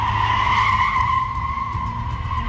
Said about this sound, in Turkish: Drift atan bir diğer sürücü ise Bursa'da kayda geçti.